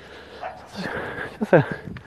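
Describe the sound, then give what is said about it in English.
Dogs bark and yip as a runner passes them: a few short, sharp barks stand out near the end over steady background noise. “we're running by some dogs and some smokers.”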